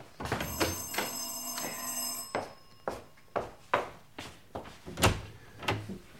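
A door being opened to let in two visitors, preceded by a ringing bell held for about two seconds, followed by a run of sharp clunks and knocks of varying loudness.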